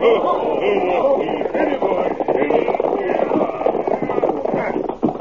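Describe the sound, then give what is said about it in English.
Hoofbeats of horses being ridden in a western radio drama, a steady, continuous clatter blended into a dense, busy mix that runs for the whole stretch. “Then at the command of the Lone Ranger, they mounted and rode toward the home of Baldy Bronson.”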